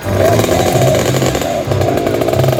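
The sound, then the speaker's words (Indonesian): A rare vehicle's engine revving hard, loud, rough and continuous, with rapid pulsing throttle blips throughout and no pause. “Gas terus, gas terus. Lo. Ini loh kendaraan langka yang harus dilindungi keberadaannya.”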